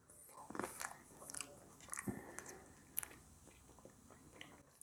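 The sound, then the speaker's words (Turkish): Biting into and chewing a grape: a series of soft, wet crunches and squishy chews at an irregular rhythm, fairly quiet and without talk, ending with a sharp click. “Uzun zamandır üzüm yemedim. Bir tane de üzüm yiyelim.”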